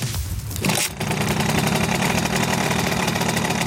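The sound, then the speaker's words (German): A Simson moped's two-stroke engine runs at a moped gathering in Suhl, giving a rough, buzzing rattle that dips briefly near the start, then holds a loud, dense drone. “Das ist der typische Simson-Sound, meine Damen und Herren.”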